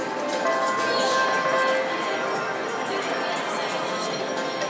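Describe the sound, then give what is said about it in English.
Casino floor ambience at Planet Hollywood Casino: a constant bed of slot-machine noise with sustained electronic tones and light chiming, and murmuring voices underneath. “I'm here at the Planet Hollywood Casino.”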